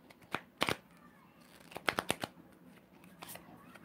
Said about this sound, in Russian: Значит так, две карты сразу выпали в твоей жизни.